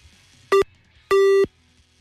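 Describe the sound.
Telephone busy signal after dialing a number: two steady electronic tones at a constant pitch, a short one followed by a longer one, each clear and loud over a quiet background hum.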